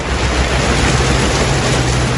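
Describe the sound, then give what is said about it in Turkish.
Sudden heavy downpour of rain, a loud, dense, unbroken hiss with a deep rumble underneath, steady from start to end with no voices. “Aniden bastıran sağanak yağış tüm hayatı felç etti.”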